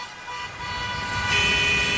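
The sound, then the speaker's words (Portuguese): A horn or siren tone from a police patrol car comes in partway through as a steady, fairly loud high note that holds to the end, over a dull rumble of traffic. “a sirene e os buzinaços identificando a patrulhinha”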